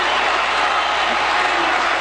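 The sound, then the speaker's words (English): A crowd at a party nominating convention angrily interrupting a primetime speech, a dense, sustained roar of many voices and clapping that stays loud and even throughout. “The crowd angrily interrupting the speech.”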